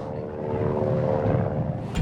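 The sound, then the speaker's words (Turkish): A small airplane drones steadily in flight, its engine giving a constant low hum with a steady tonal whine and no voices. “Güzel uçakmış. Bu güzel, harika bir uçuş.”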